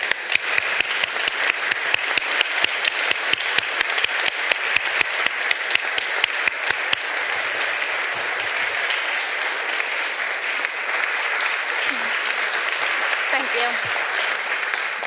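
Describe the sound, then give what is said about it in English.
Audience applause welcomes a speaker onto a stage, starting as a run of distinct, evenly spaced claps that quickly thickens into dense, sustained clapping which holds steady and loud to the end. “So I'd ask us all to stand and welcome Angela with a warm, rousing ovation. Angela, come on out.”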